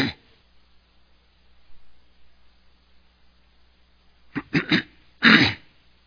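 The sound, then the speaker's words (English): Throat clearing during a talk on theology: after near silence, a few short raspy bursts come in quick succession, followed by one longer, harsher clearing at the end. “And I need to fix this throat.”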